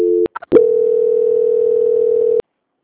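Telephone line tone while a call is transferred: a few short clicks and beeps, then one steady, loud, mid-pitched tone that holds unbroken for almost two seconds and cuts off abruptly.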